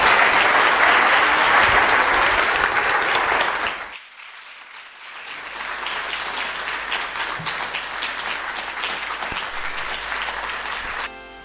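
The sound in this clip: Loud, sustained applause from an audience welcoming a speaker onto the stage. The dense clapping dips sharply around four seconds, then carries on at a steady, slightly lower level to the end.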